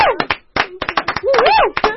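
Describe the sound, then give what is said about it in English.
Applause for a singer's performance: a few sharp, sparse hand claps mixed with voices, as a short scattered round of clapping rather than a dense ovation. “A round of applause one more time.”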